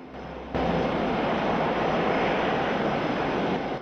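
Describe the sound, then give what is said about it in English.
The steady roar of a Boeing 747 jumbo jet cruising through the night sky: a broad, rushing engine drone that swells in abruptly after a brief quieter moment, then holds constant and loud throughout. “A pitch-black night sky, interrupted by the twinkling bright white safety lights of a Boeing 747 jumbo jet as it cruises.”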